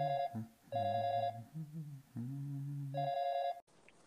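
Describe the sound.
Telephone ringing on a call that is waiting for an answer: a few bursts of a bright electronic ring tone alternate with lower, steady tones, then the sound cuts off abruptly.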